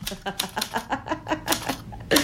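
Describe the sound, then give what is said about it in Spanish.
Typewriter keys clack in a quick, slightly uneven run of many sharp strikes, with a louder strike at the end. “A ver, ¿qué recuerdo te transmite la máquina de escribir?”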